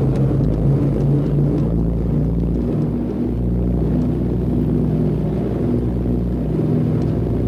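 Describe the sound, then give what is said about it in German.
Engine rumble of a Ju-52 aircraft taking off, its three nine-cylinder radial engines of 650 hp each accelerating together: a steady, heavy, low drone with a humming undertone, continuous and even in loudness. “Drei Neunzylinder-Sternmotoren mit je 650 PS beschleunigen auf sagenhafte 120 Stundenkilometer und dann geht's ab in die Luft.”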